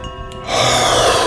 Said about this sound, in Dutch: inademen en dan ademen we met kracht uit. En tijdens dat uitademen laat je ook alle spanning gaan, alles laat je los. Dus je ademt letterlijk heel diep in.